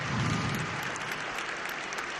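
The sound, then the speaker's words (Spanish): A crowd applauds during a speech by the Pope, with a dense, continuous wash of clapping that is strongest at the start and stays steady to the end. “Un nuevo aplauso en medio de este discurso profundo del Papa.”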